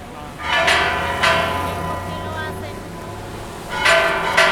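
Church bells ringing in Bogotá between San Francisco and La Candelaria, a few loud metallic strikes with long shimmering overtones, some near the start and more near the end.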